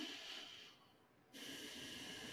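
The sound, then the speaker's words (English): A deep breath: two long, soft, airy breath sounds separated by a brief quiet pause, faint and unaccompanied by any voice. “Breathe.”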